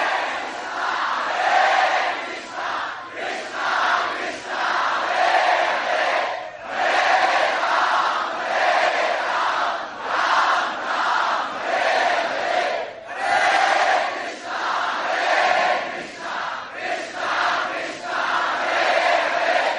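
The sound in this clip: Large crowd of Krishna devotees chanting loudly in unison, a dense and continuous wall of voices that swells and dips in a steady rhythm for about twenty seconds.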